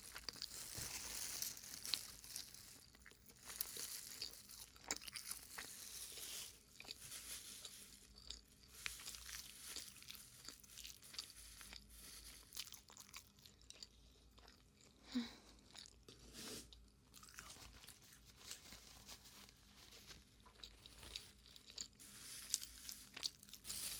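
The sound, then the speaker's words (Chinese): Chewing a half-cooked egg: faint, continuous soft bites and wet, crunchy mastication noises repeat many times throughout, with no talk. “太喜欢这种半生不熟的鸡蛋了，太好吃。”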